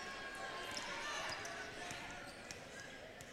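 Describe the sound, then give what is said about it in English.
A basketball is dribbled on the court during a girls' high school game, a few sharp bounces cutting through steady, dense background noise. “She'll dribble out top, 20 seconds to go.”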